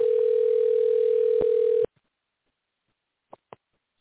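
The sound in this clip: Telephone tone while redialing a guest's number: a steady electronic tone holds for nearly two seconds and cuts off, followed after a silence by two short, quick beeps.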